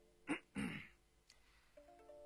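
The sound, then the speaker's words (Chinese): Throat clearing by a man about to read a document aloud: two short, rough bursts in quick succession, followed by quiet low tones. “清清嗓子”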